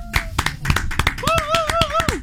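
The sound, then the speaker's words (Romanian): The Zoo team applauds in a studio with many sharp, uneven hand claps in quick succession, and a voice is heard alongside the clapping. “Astea sunt aplauzele sincere. Am pornit microfoanele doar ca să auziți reacțiile echipei de la Zoo în fața artei.”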